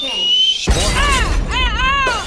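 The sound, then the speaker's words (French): A shooting star crashing down, played as a comedy sketch sound effect: a single loud shattering smash after a thin steady tone, followed by voices crying out. “Mais les météorites, c'est toujours fun hein, quand on voit ce qu'on appelle une étoile filante. Mm-hmm. Ça peut donner ceci. On écoute.”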